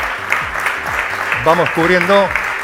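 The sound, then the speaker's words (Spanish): An audience claps in steady applause for a guest, the sound partly masked by a voice talking over it. “Si le pueden aplaudir”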